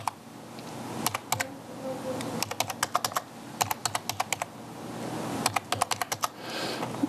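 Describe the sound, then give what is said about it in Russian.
Someone types a card number on a computer keyboard: quiet clicking keystrokes come in several quick bursts separated by short pauses, with no voices. “нажимаем на «Виза» и вводим номер своей карты.”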